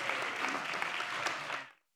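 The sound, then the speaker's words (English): An audience applauds to welcome the first comedian onto the stage. The clapping is dense and even, then cuts off sharply shortly before the end. “So first up here, please welcome with a hearty cheer, Jack Norton.”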